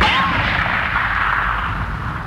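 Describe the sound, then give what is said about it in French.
Gunfire aimed at a group from a fissure in the rock, with a steady, dense roar of shooting and no clearly separate shots. A brief whistling tone sounds near the start. “Hé, les gars! On nous tire dessus!”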